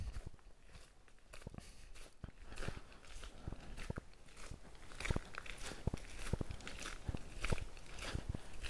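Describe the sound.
Footsteps crunch on a wide gravel forest path at night, many soft, crisp steps in a steady walking rhythm, fairly faint, with no talk over them.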